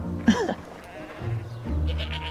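A goat on a farm lets out one short, quavering bleat, followed by lower, quieter bleating murmurs against steady background noise.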